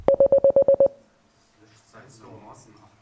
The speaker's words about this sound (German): Jemand hat es mitgezählt. 8 Beeps sind es. 8 kurze Signale.